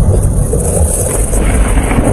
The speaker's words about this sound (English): That's the sound of a Saskatchewan storm system that brought funnel clouds, large hail, and winds strong enough to nearly knock over a grain bin.